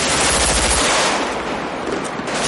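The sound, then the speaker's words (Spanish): Dense automatic gunfire in a street shootout between fugitives and police in a thriller film. A continuous, loud, harsh rattle of many rapid shots, with no talk. “El rubio dispara de nuevo a su espalda y recarga tras un maletero. Los tres fugitivos disparan en los dos frentes.”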